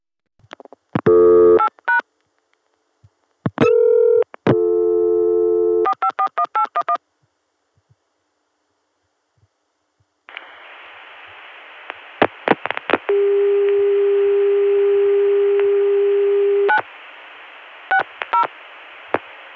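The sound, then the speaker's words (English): Telephone touch-tone dialing and call signal tones on a line through a Chicago switch: rapid bursts of dialed digits and short steady tones, then a long sustained dial-type tone, with scattered beeps around it. “Chicago 400 Hz dial tone. So we'll be getting a very clean connection all the way to the Chicago switch, but then when we call 960, well, I suspect it's going to sound the same as it did from Atlanta.”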